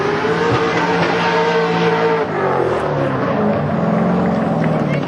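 Drift cars revving at the final weekend of the New Caledonia drift championship, engines roaring loudly and continuously with a wavering pitch that dips briefly midway before climbing again.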